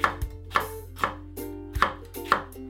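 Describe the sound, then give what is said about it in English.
A knife slices a paprika on a cutting board, making a steady series of crisp, sharp chopping strokes about every half second. Each stroke has a short ringing tail and there are no voices. “And then you just simply take the top part and slice it again into slices.”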